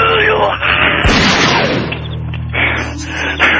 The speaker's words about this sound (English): What was that other shot I heard? I shot my foot. God, look at that. The gun was at my side. I just blew my foot off.